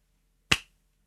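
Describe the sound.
A coin flipped into the air makes a single sharp, bright flick that stands alone and fades quickly into silence.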